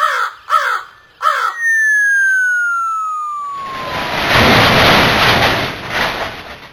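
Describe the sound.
A giant crow caws three times, then a long whistle slides steadily downward as it falls, followed by a loud, broad, rushing crash that fades out slowly.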